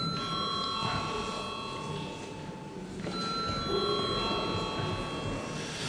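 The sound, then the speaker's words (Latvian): An electric bell rings in a parliament chamber to call members to a vote, a sustained high metallic ring that briefly breaks and then resumes steadily. “Lūdzu atbalstīt likumprojektu pirmajā lasījumā. Lūdzu zvanu.”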